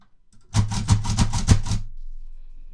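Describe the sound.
A Perkins Brailler embosses full braille cells in a quick, even run of sharp, loud mechanical clacks, each with a low thudding body. It then falls quiet.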